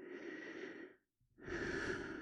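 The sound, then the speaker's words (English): A slow, deep breath taken during a relaxation exercise: a soft, airy inhale, a brief silent pause, then a longer steady exhale, heard alone without talk. “Make it easy by taking a nice deep breath now”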